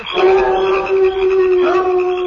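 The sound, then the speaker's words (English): Loud, sustained howling meant as prairie dogs, a steady mid-pitched wail with rich overtones that holds its tone and briefly renews toward the end. “I say, will all those prairie dogs never stop howling? They're always howling.”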